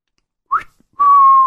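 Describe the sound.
A whistle of surprise from a man: a short upward-sliding chirp, a brief pause, then a long, steady, clear mid-pitched tone held to the end, heard alone without talk.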